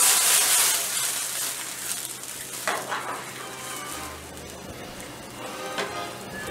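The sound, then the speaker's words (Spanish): Shrimp sizzles in a pan with white wine added as it sautés. A steady, bright hiss runs throughout, with occasional clinks of a pan or utensil and no voices. “Vamos a sartenearlo un poco. Vamos a agregar un poco de vino blanco. Y vamos a dar nuestro primer sartén.”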